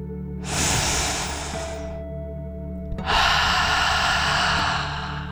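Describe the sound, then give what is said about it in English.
One deep breath taken during a calming bedtime relaxation exercise: a long, hissing inhale, then after a short pause a longer, slightly louder exhale that slowly fades, with no talk. “So let's take one final deep dragon breath. In and out.”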